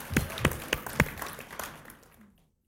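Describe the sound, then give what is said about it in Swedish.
Scattered audience applause for a speaker: a few distinct, fairly sharp claps stand out over a soft bed of clapping, which thins and fades away to silence near the end. “Can we give Anna a hand? Kunnu við klappa fyrir hann?”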